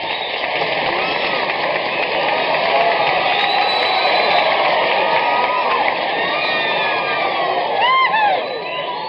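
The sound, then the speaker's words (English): Audience cheering to welcome a folk artist: continuous loud crowd noise with whoops, shouts and whistles sustained for about nine seconds, then easing off at the very end. “So let's rear way back and give a great big Prince Albert welcome to Hank Thompson.”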